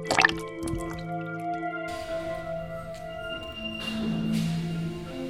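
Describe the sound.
Blood poured into a vessel, about a wine bottle's worth, dripping and splashing: faint wet drips and squishy trickles run throughout over a low, steady background hum, with no talking.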